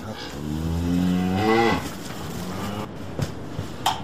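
A cow, livestock kept at home in a rural village, lows once in a long, deep, harmonic moo lasting under two seconds. It is followed by quieter background noise with a few faint clicks and no voices.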